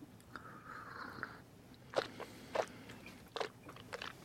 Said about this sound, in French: Ce qu'on doit faire pour vraiment faire la combinaison des deux, c'est vraiment important d'inspirer par la bouche et d'expirer par le nez. C'est ce qui fait ce petit bruit que nous avons entendu.